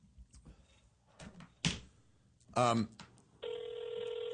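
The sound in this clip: Ringback tone of an unanswered telephone call, one steady buzzing tone that begins near the end and carries on, after people talk and a few knocking sounds.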